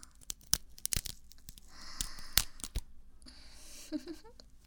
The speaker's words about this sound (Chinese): 撕开它。撕丝袜如果能缓解你的压力的话，也是一个合适的办法。